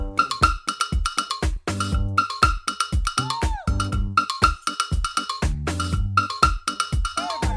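Cowbell hits pop out of a song's percussion groove, a rapid run of bright metallic clanks over bass and other instruments, repeating in a steady rhythm.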